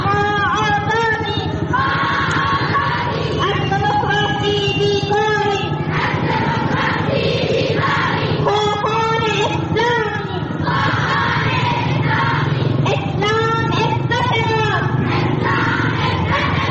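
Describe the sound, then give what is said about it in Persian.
Dozens of women chant slogans at a pro-Taliban march in Zaranj, Nimruz, their voices loud and high in repeated rhythmic phrases, with short pauses between the calls. “این صدای ده‌ها زن در شهر زرنج مرکز ولایت نیمروز به حمایت از طالبان است که هفته گذشته راهپیمایی داشتند.”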